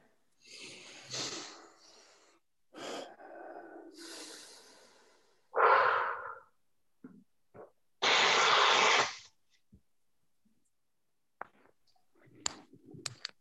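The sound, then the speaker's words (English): A group of people take deep breaths during a training session, with several loud, breathy inhales and exhales separated by pauses and a few faint clicks near the end. “And everybody take a deep breath.”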